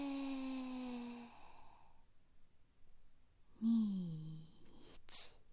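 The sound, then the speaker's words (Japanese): Long breaths out after holding the breath during a guided breathing exercise: two voiced, sighing exhalations that fall slightly in pitch. The first is drawn out, the second starts louder, and softer breathing fills the pause between them. “吸って、止めて、吐いて、”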